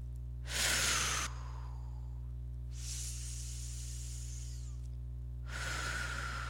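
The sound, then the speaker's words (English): Three deep calming breaths, each a breathy rush of air: a strong first one, a longer softer second one, and a third starting near the end, all over a constant low hum. “Can we just, yeah, let's breathe.”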